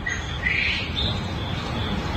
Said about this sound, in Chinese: 云淡风轻就把这个打鸣的声音发过来了， 来听听啊。